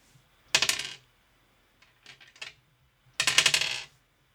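Dice rolling during a tabletop role-playing game, heard as three quick clattering rattles. The first and last are loud and the middle one is softer.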